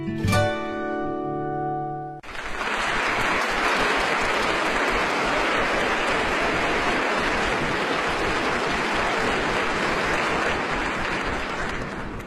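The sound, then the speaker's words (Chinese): Steady, dense applause from a live concert audience follows a sustained closing chord that ends after about two seconds, then continues loud and even to the end. “音乐会的掌声一响起”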